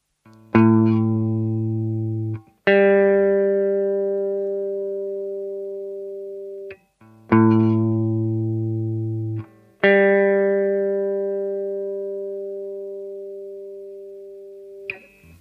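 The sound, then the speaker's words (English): A minor seventh interval rings out twice as two separate tones, a lower one held first and then a higher one. Both tones are clean, electronic-sounding and slowly fading, with short gaps between and no voices. “Now we have 0-10, or the minor 7th.”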